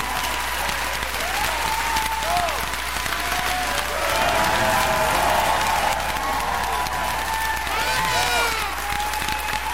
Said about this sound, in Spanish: Muchas gracias, el aplauso.